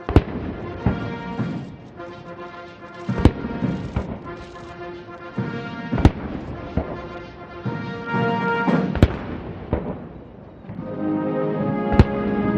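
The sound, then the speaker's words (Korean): Cannon blasts of a 21-gun salute at an official White House welcoming ceremony, with five sharp booms about three seconds apart cutting through a military band playing a national anthem. “약 27분간 진행된 행사는 양국 국가 연주와 21발의 예포 발사, 미국 6회 공군과 해병대 의장대 사열 등의 순서로 진행됐습니다.”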